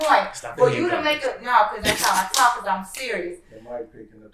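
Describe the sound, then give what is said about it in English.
One sharp hand clap picked up by the microphone cuts through the middle of lively conversation, brief and loud against the talking voices around it. “The mic picking up the clap.”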